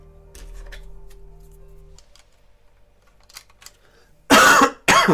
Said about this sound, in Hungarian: Bocsánat, hogyha egyébként így beleköhögök az adásba